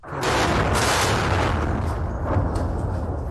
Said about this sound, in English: That is the sound of an airstrike that hit close to military headquarters in Khartoum Tuesday morning.